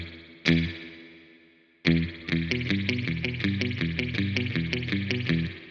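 Electric guitar through a Kemper Profiler with the dirt parameter turned up, giving a gritty distorted tone: two ringing chords, then a steady, fast riff of repeated chugging notes.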